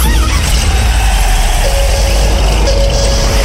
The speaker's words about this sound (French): le moteur, on y tient. Tu veux le démarrer ?